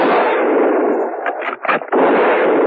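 A firing squad's rifle volley makes a loud, dense, continuous roar of gunfire. The noise dips briefly a few times near the end, then surges back, and no voices are heard.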